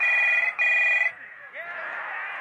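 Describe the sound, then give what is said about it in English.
A telephone rings in two short bursts of a bright electronic trill, each cut off by a brief gap. Softer, murmuring noise follows once the ringing stops. “Michael was watching TV when the phone rang.”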